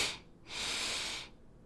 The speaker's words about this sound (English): Exhale, let it go. Good, again. Good, inhale.